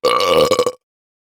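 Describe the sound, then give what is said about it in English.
A single loud burp, offered as a gross sound to guess, rolls out with a rough, buzzing texture for under a second and breaks into a few choppy pulses at its end before silence. “A burp, or a belch, is what we call it when our bodies release gas through our mouths.”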